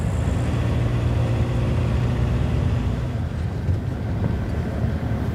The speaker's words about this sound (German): Finden eine Ferienwohnung, direkt neben der Brenner-Autobahn.